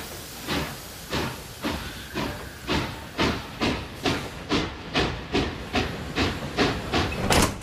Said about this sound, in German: Der Express fährt nun los. Abfahrt!